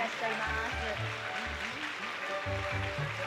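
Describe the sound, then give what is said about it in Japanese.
A studio audience applauds to welcome guests onto the stage, with a sustained wash of clapping running beneath continuous speech. “皆様どうぞ大きな拍手でお迎えください”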